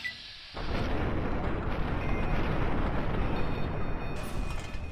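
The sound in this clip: Grenade explosions destroy berserk security robots in a video game, rising after a short quieter opening into a loud, sustained, rumbling blast roar that lasts to the end.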